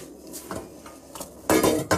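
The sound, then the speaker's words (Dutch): Pot and utensil clatter as a lasagna sheet is laid into a pot of boiling salted water, with light knocks and scrapes that build to a louder burst of metallic clanking near the end. “intussen is mijn andere pot met mijn water en zout ook goed aan het koken. En ik zal daar nog zo'n lasagneblad inleggen. Ik zal dat fijntje inleggen.”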